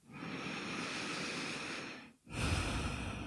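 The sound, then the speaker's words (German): A deep breath in and out during a closing meditation: two long, airy breath sounds separated by a brief silent pause, the second slightly stronger and rougher. Heard alone, no speech. “nochmal tief ein- und ausatmen”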